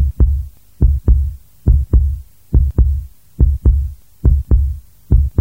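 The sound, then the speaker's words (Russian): A human heartbeat pulsing in loud, low double thumps, about six lub-dub pairs in a steady, even rhythm, heard alone with no talk. “Нашел! У меня тоже пульс стучит!”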